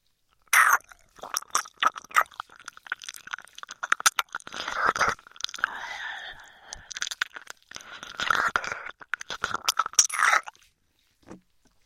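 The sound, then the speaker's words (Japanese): Wet ASMR ear kisses: many soft lip smacks and moist mouth clicks in irregular clusters, with brief pauses between bursts and no talking. “お口にキスするのはご主人様への不貞になるから、代わりにお耳にしてあげるね。”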